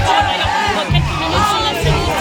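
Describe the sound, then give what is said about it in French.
A crowd of women protesting the slowness of the courts raises loud, overlapping shouting voices, a dense, continuous clamour with rhythmic surges like chanted cries. “parterre de femmes venues dire leur colère contre les lenteurs de l'institution judiciaire. L'une des plaignantes est justement au milieu de la foule, l'animatrice Flavie Flamand.”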